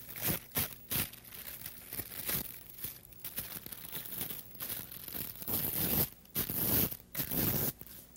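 Scissors cut through leftover wrapping paper near a torn edge, making a loud run of crisp, papery snips and crinkles with brief pauses between them and no talking.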